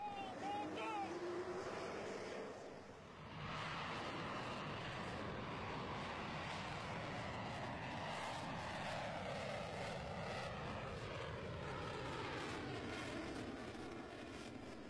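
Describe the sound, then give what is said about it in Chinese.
Roar of J-15 fighter jets taking off from the aircraft carrier Liaoning at sea: a dense, steady jet rumble that fills the whole stretch, dipping briefly near the start before swelling back to full strength. “轰鸣声中，四架战机先后腾空而起，直插云霄。”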